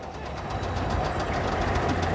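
An engine running on only one cylinder gives a steady, rapid chugging knock. Evenly spaced pulses continue at a fairly constant level throughout.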